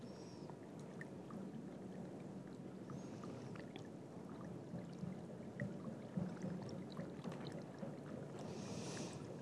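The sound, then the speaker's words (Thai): White powder is stirred in water until it dissolves, making a soft, continuous watery swishing. The sound is faint and even throughout, with no talking. “ตัวนี้จริงๆเราไม่ต้องใช้เครื่องตีเลยนะคะเราสามารถใช้ คนไปเรื่อยๆได ้คนไปเรื่อยๆได้นะคะ อันนี้เราก็คนไปเรื่อยๆจนกว่าจะละลายนะคะ”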